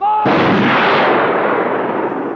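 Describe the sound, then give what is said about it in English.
Firing squad gunfire in a film execution scene: a single loud, sharp volley erupts and then rolls away in a long, rumbling decay. “Shoot straight, you bastards! Don't make a mess of it!”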